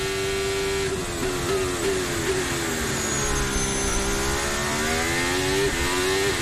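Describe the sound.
A Formula 1 hybrid car engine runs at full throttle while its battery charges and drains, giving a loud, sustained high-pitched whine with strong steady harmonics whose pitch sags slightly mid-clip and then climbs back.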